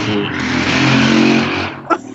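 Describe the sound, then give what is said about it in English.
A motorcycle passes outside with a steady, buzzing engine drone that swells slightly and then cuts away, followed by a brief separate sound. “sorry, there's a motorcycle.”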